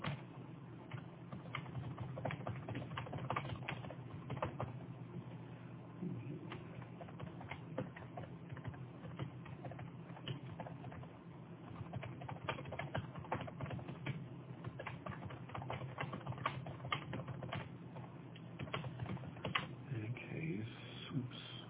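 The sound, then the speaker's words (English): A private message is typed on a computer keyboard with three fingers, a long, steady stream of quiet, irregular key clicks with no real pauses. “And I think I type with three fingers.”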